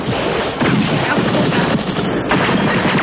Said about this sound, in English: Yeah, I was firing as I was talking.